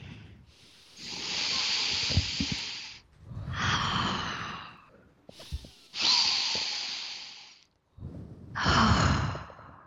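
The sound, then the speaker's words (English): Slow, deep breathing: long airy inhales and exhales that rise and fade in turn, each breath a soft, breathy hiss with quiet pauses between, and no talking. “how do you feel about this new way of starting our podcast, taking three deep breaths?”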